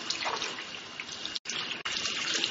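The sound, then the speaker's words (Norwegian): Running tap water at a sink as hands and forearms up to the elbows are rinsed, a steady bright rushing stream broken by two brief interruptions, with no talk. “Og så tar jeg oppover til albuen. Så skyller jeg først hendene.”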